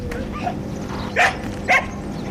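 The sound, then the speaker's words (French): A shepherd dog barks in greeting at a goat barn on a cooperative farm. Two short, sharp barks cut through a steady background hum, spaced about half a second apart. “Alors, on est accueilli par le chien de berger qui a très envie de faire la fête.”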